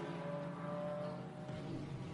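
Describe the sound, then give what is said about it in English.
A Toyota Gazoo Racing car's engine runs on a race circuit, a faint but steady droning whine with layered tonal harmonics throughout. No voices are heard over it. “That number 23 Toyota Gazoo racing the black car with the multicoloured stripes on.”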